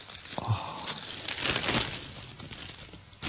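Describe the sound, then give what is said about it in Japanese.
Crinkling rustle of a plastic bag being pulled over something: a steady papery crackle that swells in the middle, with brief sharper rustles near the start and end, and no talk. “これはビニール袋をかぶせる音です。”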